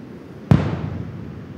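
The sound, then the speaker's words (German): A controlled detonation of a washed-up naval sea mine, blown up by a bomb disposal team where it was found: one sharp, loud blast, then a low rumbling decay that fades over about a second. “Deswegen muss der Kampfmittelbeseitigungsdienst sie direkt an der Fundstelle sprengen.”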